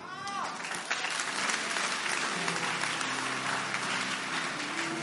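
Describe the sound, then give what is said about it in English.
An audience claps in a dense, steady wash of applause during a church sermon, with a voice rising and falling faintly underneath for about five seconds. “Are you clapping or you are doing something like clapping?”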